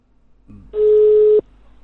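A phone call rings without being answered: a faint click, then a single steady, mid-pitched ringback tone that cuts off sharply.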